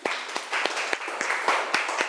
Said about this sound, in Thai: ดอกบัวปรบมือให้เพื่อนหน่อยครับ